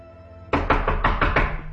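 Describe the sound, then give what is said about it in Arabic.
Knuckles knock on a door in a quick, even run of sharp, loud raps that start abruptly after a quiet moment and continue to the end, with no voices. “قطع كلام الست رجاء صوت خبط على الباب”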